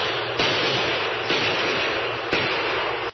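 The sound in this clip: Three evenly spaced gunshots ring out in a western drama, each a sharp crack over a constant loud hiss.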